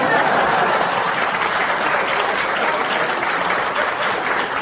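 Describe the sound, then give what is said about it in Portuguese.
Applause from the audience at a motivational stand-up comedy show: dense, steady clapping that stays loud and even from start to finish. “Essa foi boa, aplausos para mim.”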